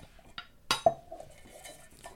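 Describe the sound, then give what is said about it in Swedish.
A jar of paper slips is shaken, giving a few sharp clinks and light rattles, then a faint lingering ring, with no talk. “framför dig så har du en burk. Mm. Skaka den. Du ska få dra en lapp i den.”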